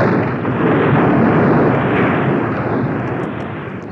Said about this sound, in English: The ground heaved, and the stone rolled back, leaving Aladdin trapped in the cave.